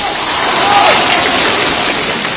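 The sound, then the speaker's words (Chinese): Applause from the audience at a New Year crosstalk comedy performance, steady and moderately loud clapping that continues without a break through the moment. “大伙鼓掌了？ 你没听那个掌声里边都带着嫌弃吗？”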